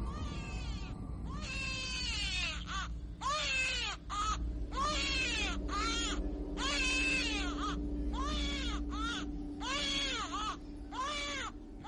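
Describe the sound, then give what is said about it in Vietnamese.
A child cries loudly on a roof behind a garden, a long series of shrill, wavering wails in repeated bursts over a low steady hum. “ở trên mái nhà đằng sau vườn tự nhiên vang lên tiếng trẻ con. Tiếng trẻ con khóc lên choe choe đến giận cả người, cứ như là bị ai đánh vậy.”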